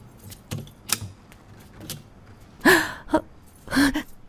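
Keys jangling as a door is opened at night: several sharp metallic clicks and rattles, ending in two louder, fuller bursts.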